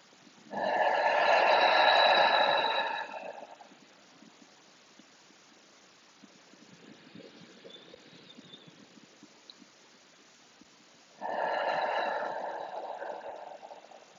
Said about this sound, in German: Nimm noch zwei, drei tiefe Atemzüge für dich. Ganz tief, lass den Bauch nach außen wölben beim Einatmen.